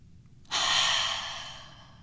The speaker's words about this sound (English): now let's take a breath together.